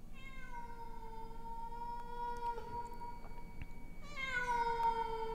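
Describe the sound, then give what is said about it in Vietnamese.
A cat meows on a roof in two long, drawn-out, tonal cries, the first lasting a couple of seconds and the second starting higher and bending downward, over a faint steady background hiss. “Bất giác ở trên mái nhà, tiếng con mèo hồi nãy lại vang lên đến não lòng, réo rắt làm cho Nguyệt lạnh gáy.”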